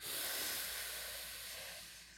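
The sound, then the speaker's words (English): A deep inhale taken as a cleansing breath makes a soft, airy hiss. It is faint and alone, swelling quickly and then slowly tapering over about two seconds. “We have to take a deep breath. Let's take a cleansing breath together.”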